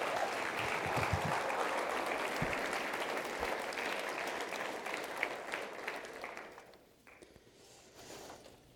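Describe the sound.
Audience applause at a church gathering: sustained, dense clapping that holds steady, then tapers off near the end.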